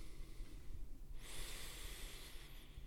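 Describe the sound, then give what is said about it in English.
A single deep breath taken for effect: a long, breathy rush of air that swells up suddenly and holds for about a second and a half before fading, after a quiet stretch. “deep breath for effect.”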